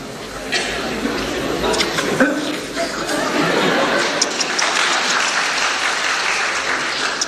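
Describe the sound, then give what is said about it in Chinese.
Sustained audience applause fills the whole clip at an even, dense loudness as a stream of soup pours down during a stage act, with a voice faintly present beneath the clapping. “这里肯定有掌声。”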